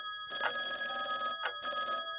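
A telephone rings in the evening: a bright, buzzing electronic ring with a long burst followed by a shorter one after a brief gap, fairly loud and alone.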